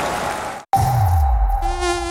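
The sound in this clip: High, thin mosquito buzzing, a steady whining drone that drops out for a moment and then returns with a low rumbling swell beneath it and a brighter, rising tone near the end.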